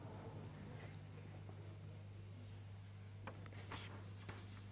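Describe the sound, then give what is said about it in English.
Faint scratching of writing on a board during a physics lecture on fermion-fermion pairs, soft intermittent strokes over a steady low hum, with no talk. “Let me write it this way. Of fermion-fermion pairs.”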